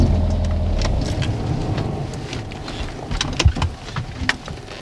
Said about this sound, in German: Okay, Moment. Ich fahre rechts ran.